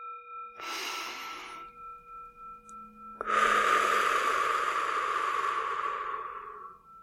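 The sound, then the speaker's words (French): Deep breathing during a relaxation exercise: a short airy inhale, a pause, then a long, slow exhale that gradually fades, over a faint steady tone. “Fermez les yeux, prenez quelques grandes respirations profondes.”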